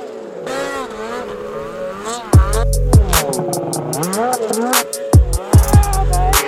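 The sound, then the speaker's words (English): Side-by-side UTV engines running near a tent at the Heyday event: a droning motor hum whose pitch sways up and down, broken by several louder bursts of revving. “We are back at Heyday still, so don't mind the side-by-side noise in the background.”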